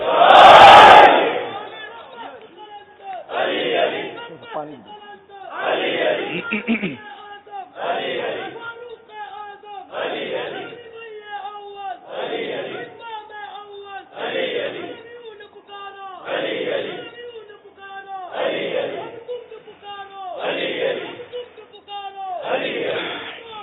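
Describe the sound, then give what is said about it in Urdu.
Crowd shouting back in unison to the chanted religious slogan Naara-e-Haidari at a Shia gathering: loud, voiced bursts of many people repeat every couple of seconds in a steady call-and-response rhythm. “میں ایک نعرہ لگاؤں گا، سب مل کے جواب دیں گے، نعرہ حیدری۔”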